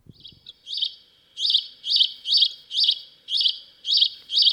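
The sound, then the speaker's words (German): Great spotted woodpecker call reproduced by a wooden box that imitates bird song: after a few faint notes, eight sharp, high chirps repeat at an even, steady rhythm, loud and alone. “So hört sich ein Buntspecht an.”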